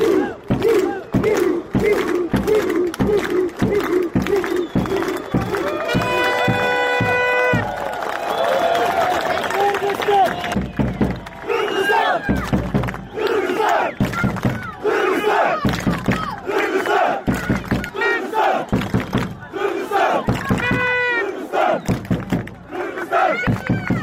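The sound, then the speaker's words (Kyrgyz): Football spectators clap in rhythmic unison to send off the winners after a match, a steady beat that gives way to loud crowd shouting and cheering. “Оюн бүткөн соң көрүүчүлөр жеңүүчүлөрдү салттуу кол чаалуулар менен узатышты.”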